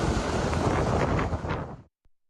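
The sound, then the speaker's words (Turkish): Roaring, gusty wind from a tornado that struck the Yumurtalık district of Adana, a dense, loud rumble buffeting steadily before cutting off abruptly near the end. “Yumurtalık ilçesinde hortum çıktı. Kısa sürede büyüyen hortum paniğe neden oldu.”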